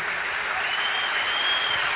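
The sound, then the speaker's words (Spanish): Audience applause at a Spanish-language event, an even, continuous wash of clapping with no breaks or distinct voices. “Un aplauso para los muchachos que nos acompañan.”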